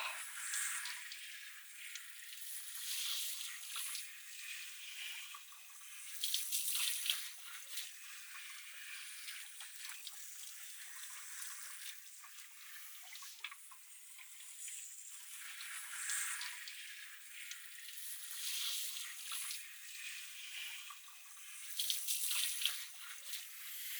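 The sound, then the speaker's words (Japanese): Shower water spraying onto the back of the head while hair is being washed, a soft, steady hiss of falling water that swells with a few louder surges, with no voices. “あとは後頭部周辺にシャワーを当てて”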